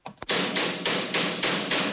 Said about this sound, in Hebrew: שים לב לפטיש.